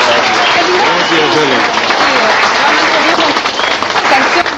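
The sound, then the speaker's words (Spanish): Audience applause at a live music event, a dense, steady roar of many hands clapping that stays loud and even throughout. “Nuevamente un fuerte aplauso para Roberto Silva Cachún.”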